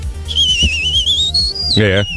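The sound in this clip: A person whistles to imitate a rocket: a thin, high, wavering whistle that climbs slowly in pitch, then breaks into a fluttering warble and falls away, over low voice sounds.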